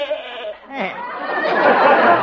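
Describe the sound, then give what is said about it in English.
A goat bleats in a short, quavering call with a wavering pitch, and a broad, noisy wash follows it. “And then there's Arthur, my goat.”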